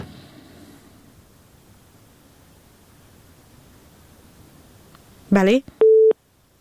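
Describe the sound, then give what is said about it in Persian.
A telephone tone sounds after a dropped call: faint hiss at first, then a short, loud, warbling tone burst and one steady beep near the end. “بله متاسفانه تماس آخونزاده صاحب قطع شد.”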